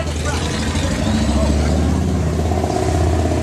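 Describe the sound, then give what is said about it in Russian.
A group of bikers' motorcycles rumbles in a steady, low, revving roar, with a voice talking over the engines throughout. “А вот вы слышите за спиной меня мотоциклы.”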